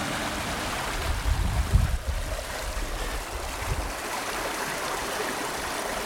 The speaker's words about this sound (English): as I'm sure you can hear, I am next to the most beautiful stream.